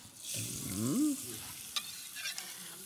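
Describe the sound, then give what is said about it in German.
Onion frying in rapeseed oil gives a steady sizzling hiss, with a few short stirring clicks and scrapes near the end. “Dann habe ich hier etwas Pflanzenöl. Ja. Ja. Das ist ein Rapsöl. Und da lassen wir jetzt unsere Zwiebel schön Farbe nehmen.”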